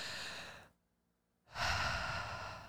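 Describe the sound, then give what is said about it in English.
A deep breath drawn in and let out slowly during a calming exercise for anxiety: two long, soft, airy breaths separated by a short silent pause. “Let's just try to take a deep breath. Everybody take a deep breath.”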